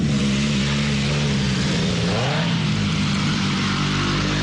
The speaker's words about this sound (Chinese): 哇，可以感受到这个机车露营的感觉了。已经有这个机车的轰鸣声了。